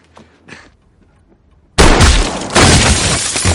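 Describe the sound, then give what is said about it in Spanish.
A shotgun blast from a film, fired by an old woman at a mercenary's back. A couple of faint knocks come first, then a sudden loud burst that stays dense and swells again moments later. “La mujer saca una escopeta.”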